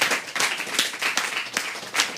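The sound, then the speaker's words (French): Applause for the staff at a year-end thank-you: a dense, steady patter of many hands clapping, fairly loud throughout, with no talk over it. “Merci, j'aimerais vous applaudir, vous êtes vraiment précieux.”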